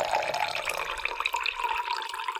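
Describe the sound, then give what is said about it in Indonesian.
Hot water is poured into a glass in a steady, continuous trickling stream, moderately loud and with no voices over it. “kamu tuangkan air panas itu.”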